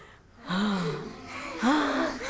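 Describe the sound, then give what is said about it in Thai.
Children panting in two short, breathy gasps, each a voiced exhalation with a sliding pitch, fairly quiet and with no talk. “จากนั้นเด็กๆจึงหอบ”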